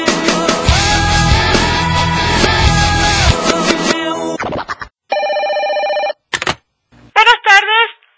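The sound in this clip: A telephone ringing with a steady electronic tone that cuts in after several seconds of loud music, followed by a short burst and a brief voice.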